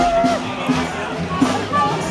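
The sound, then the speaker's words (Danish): A crowd of new graduates at a street party in Esbjerg makes steady, mid-level hubbub of many overlapping voices, with a few brief tonal calls rising above the mix. “Ja, det her, det er lyden af Fest i Gaden, og gaden, den lå i Esbjerg i dag tidligere, hvor masser af unger fejrede, at de nu var blevet studenter.”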